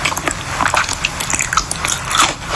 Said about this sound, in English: Really long time to pick up some damn ginger. Dipped it in soy sauce.